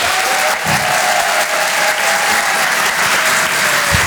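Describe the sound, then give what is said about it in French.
Audience applause fills a comedy club, a dense, steady wash of clapping that holds at an even, loud level from start to finish with no talk over it. “Faites un maximum de bruit, s'il vous plaît, pour Julien Sabas.”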